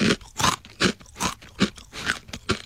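Crisp crunching of rice crackers seasoned with furikake, with no peanuts mixed in, being chewed in a steady run of several sharp, fairly loud bites with short pauses between them.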